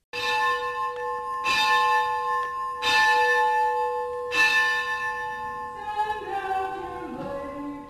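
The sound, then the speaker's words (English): A church bell rings at morning prayers in an Episcopal church in San Francisco, with four clear, evenly spaced strikes whose bright ringing tones linger and slowly fade. “The sound of morning prayers at St. Gregory's Episcopal Church in San Francisco.”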